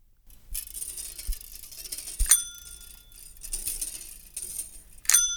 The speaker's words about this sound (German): Dazu noch ein paar Mal mit einer Fahrradklingel klingeln.